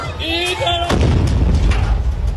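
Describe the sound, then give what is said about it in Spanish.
A loud explosion as two drums blow apart in a failed physics experiment: a sudden blast about a second in, followed by sustained roaring, crackling noise of flying debris to the end, with a faint tone before it. “Ambos tambos explotaron y cientos de pedazos salieron volando para después caer, golpear y cortar a varios presentes.”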